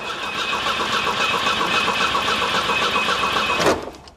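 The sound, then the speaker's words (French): An old car's starter cranks in neutral as it tries to start. The whir is loud, steady and even for about three and a half seconds, then cuts off abruptly without the engine catching. “Voyons s'il reste un souffle de vie chez cette vieille fille. On va tenter de démarrer. Point mort.”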